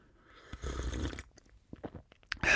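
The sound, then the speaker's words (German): Sipping Vietnamese green tea called Fuklong: a soft, breathy slurp, then a few faint mouth clicks and swallowing sounds, ending in a louder brief noise. “Ich habe mir einen Tee gemacht hier, ich ähm, trinke euch den mal ganz kurz vor.”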